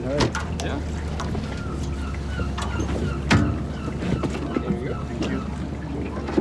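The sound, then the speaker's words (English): A motorboat comes into a dock opposite an island on a Saturday morning in June. Its engine gives a steady low rumble while wind buffets the microphone, with occasional knocks and splashes. “A motorboat is coming into the dock opposite Utøya Island.”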